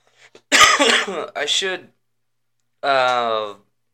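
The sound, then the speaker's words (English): Coughing and throat clearing from a person whose cough comes from smoking weed rather than from illness. A few rough bursts cluster in the first two seconds, then a longer voiced, rasping sound follows after a pause. “So, the only cough you hear from me today, hopefully, is weed-induced, not sickness-induced.”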